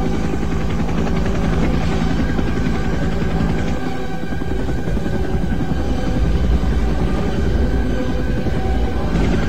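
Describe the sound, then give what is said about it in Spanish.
Helicopter rotors thudding in a film battle scene of helicopters flying over a river, a loud, continuous, rapid chop mixed with dense engine roar from start to finish. “Brutal esa escena de los helicópteros encima del río, ¿no?”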